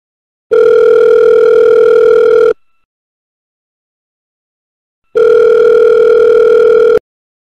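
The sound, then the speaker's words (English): A telephone tone sounds while a call is placed. Two loud, steady, mid-pitched tones each last about two seconds, separated by a silent gap of about two and a half seconds. “let's get caller number 5 on a board with this. Dial him up.”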